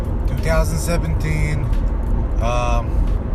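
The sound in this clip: Car driving on the way from work to the gym, a steady low engine and road rumble running throughout, with a voice sounding intermittently over it.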